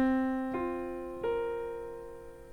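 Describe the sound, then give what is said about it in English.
Piano playing quartal harmony chords built on fourths, three chords struck in turn, each ringing out softly and slowly decaying. “Quartal harmony is built on fourths, which sound like this.”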